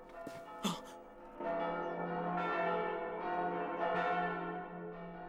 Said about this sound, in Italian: Le campane!